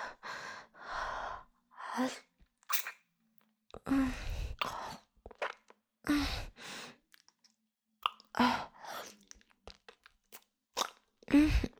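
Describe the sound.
Crunchy chewing and biting while eating, many crisp crunches and bites in short bursts with gasping breaths and sighs between them.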